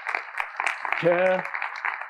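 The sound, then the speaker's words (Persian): Applause from an audience in a lecture hall: a dense, steady patter of clapping that runs the whole time, with a brief voice rising over it partway through. “بله تشویقشون کنید”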